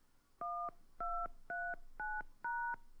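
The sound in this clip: Touch-tone keypad tones entering a password on a wireless voicemail system: five clear, steady dual-tone beeps, evenly spaced and of equal length, heard alone with no talk.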